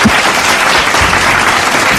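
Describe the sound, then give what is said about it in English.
Dense, steady applause from many hands holds at an even, fairly loud level for the whole two seconds, with no pause or clear break. “Man, I got to give you a round of applause, man.”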